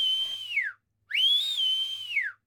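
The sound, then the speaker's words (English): A person whistles from an open bedroom window: two clear, high whistled notes separated by a short gap. The first holds steady and then falls; the second rises, holds and falls away at the end. “Sally runs upstairs to her bedroom and opens the window. She whistles.”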